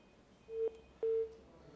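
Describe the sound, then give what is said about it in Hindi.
Telephone tones sound on the line after a dropped call: two short, steady mid-pitched beeps separated by a brief gap, over a faint hum. “Call हमसे drop हो गई”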